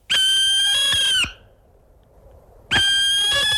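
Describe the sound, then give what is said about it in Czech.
Barn owl calls: two loud, drawn-out, high-pitched screeches rich in harmonics, the first lasting about a second, the second following after a quiet gap of over a second and running to the end. “To je sova pálená”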